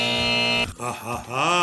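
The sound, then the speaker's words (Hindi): A quiz buzzer is pressed during a Bollywood trivia game: one loud, steady, harmonic-rich buzz lasting about half a second, then wavering tonal sounds. “Buzzer बजाई है”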